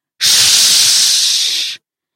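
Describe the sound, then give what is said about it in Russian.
A voice imitates a cat hissing with one loud, sustained, breathy hiss lasting about one and a half seconds, heard alone between stretches of silence. “Кошка изогнулась, зашипела.”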